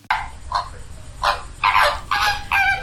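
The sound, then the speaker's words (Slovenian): Flamingos calling at their nesting colony: a series of loud, nasal, goose-like honks in separate bursts, some short and some drawn out, over a faint low rumble. “Lani je bilo tu 250 gnezdišč plamencev. Tako jih je slišati.”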